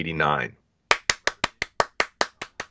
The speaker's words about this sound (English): Some live applause for you there